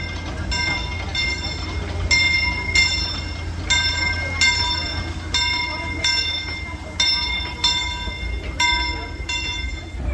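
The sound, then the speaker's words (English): A theme-park railroad train arriving at a station: a steady low rumble with a repeating ringing tone, struck many times at a regular pace, over a background murmur. “The Disneyland Limited, now arriving from a trip around Walt Disney.”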